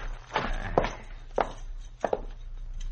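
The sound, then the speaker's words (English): Footsteps of a person walking ahead into a cabin: a few soft, irregular thudding steps, faint and spaced unevenly. “Walk ahead of me into the cabin. Go on.”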